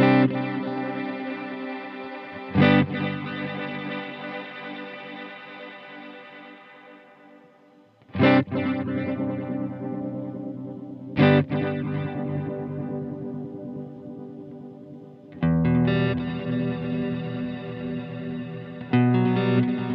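Electric guitar chords struck through a Strymon effects pedal in its 2496 setting, left unsustained. Several strummed attacks each bloom into a shimmering, chorus-like wash that slowly fades, with no talking.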